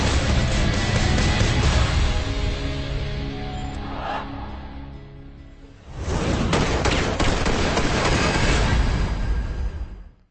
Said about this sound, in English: Rock music and gun noises.